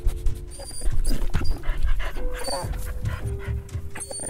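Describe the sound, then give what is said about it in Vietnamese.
A military service dog, used to track human scent around underground tunnels, pants in quick, steady, breathy bursts with a few soft snuffling sounds. “Địch sử dụng chó nghiệp vụ để phát hiện địa đạo. Chó đánh hơi được mùi người bốc lên từ các lỗ thông hơi và miệng hầm nên dễ dàng lần ra vị trí địa đạo.”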